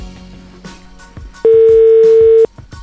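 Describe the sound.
While a call is being placed, the telephone line gives one loud, steady tone lasting about a second, rising sharply above the quieter background before cutting off abruptly.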